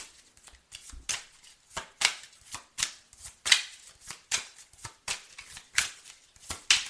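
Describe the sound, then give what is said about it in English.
Playing cards being shuffled for a card reading: many quick, crisp riffling bursts in a steady, uneven rhythm, fairly quiet with no talk. “May I have three cards,”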